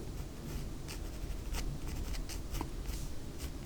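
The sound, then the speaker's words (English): Pencil sketching hair on paper: many quick, scratchy strokes repeat in an uneven rhythm, a steady soft rasp with no voices. “just drawing in some hair here”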